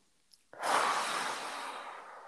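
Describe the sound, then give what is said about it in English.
A deep breath drawn in through the nose and let out through the mouth: one long, loud, airy rush that starts abruptly after a faint click and holds steady, slowly easing off, with no talk. “And nice deep breath in through our nose and out through our mouths”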